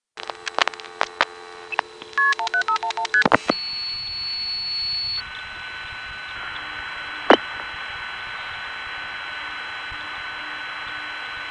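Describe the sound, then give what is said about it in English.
A Greenville payphone touch-tone dials a long-distance call to Kingston with a rapid run of many short, bright beeps. Steady humming line tones follow, broken once by a brief sharp click. “Here's another call to Kingston from a Greenville payphone that's not supposed to be able to dial long distance at all, by the way.”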